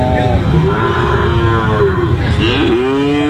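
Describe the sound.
Cattle low at a livestock market selling sacrificial and other cows, with loud, drawn-out, deep moos that overlap and waver over a busy background.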